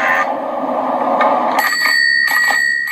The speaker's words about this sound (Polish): Ten dzwonek na koniec brzmi zdecydowanie zbyt niewinnie